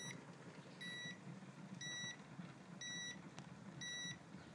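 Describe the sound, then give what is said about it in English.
A bread maker beeps to signal a finished loaf. Four evenly spaced bursts of high, thin beeping sound faintly over a low background hum, with quiet pauses between them. “I've just made a loaf and this is the noise it makes when it's ready.”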